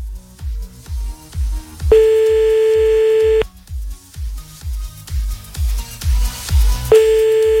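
A telephone ringback tone sounds while someone is called back: two long, steady beeps about five seconds apart, with a low thumping beat running beneath.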